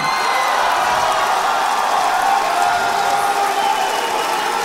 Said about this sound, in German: Ja, man hört es schon, es gab etliche Buhrufe im Publikum.